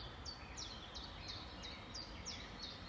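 Faint bird chirps outdoors on a warm day, a steady series of short, high, repeated calls at an even rhythm over a soft background hiss.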